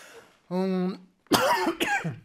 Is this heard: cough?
yes